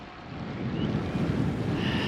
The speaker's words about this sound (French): Voilà une journée qui se termine très très bien face à la mer du Nord, avec les pêcheurs qui doivent bien avoir froid là.